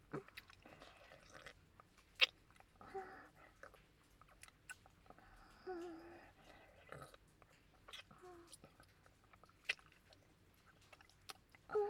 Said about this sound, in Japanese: 我慢汁と唾液混ぜてくちゅくちゅいやらしい音させちゃう。